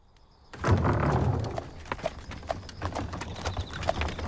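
Hooves of a horse-drawn carriage clip-clop after a brief quiet opening, beginning with a broad rumbling onset, then a steady run of sharp hoof knocks that continues to the end with no voices.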